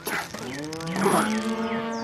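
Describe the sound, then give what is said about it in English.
A cow moos as a balky heifer refuses to go into a stall: one long, loud, drawn-out moo with a rich, steady low tone lasting about two seconds, with no talking. “Why won't this dumb heifer go in the stall? You pull on the rope and I'll push from behind.”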